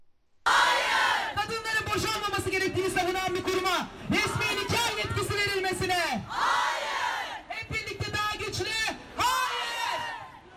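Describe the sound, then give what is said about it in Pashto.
Women protesters chant slogans at a street protest in Istanbul, Turkey, against a law letting imams perform marriage ceremonies. Loud, rhythmic crowd voices shout in unison, repeating phrases in waves. “د ترکی استنبول ښار کې دا احتجاج کوونکي خزه نارې وهي چې دوی به نه غلي کیږي.”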